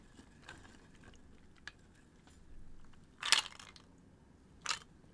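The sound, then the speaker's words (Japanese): Peanuts being crunched while eaten: two sharp, crisp crunches stand out over faint scattered clicks and a low background. “ピーナッツいただきます。うまっ。”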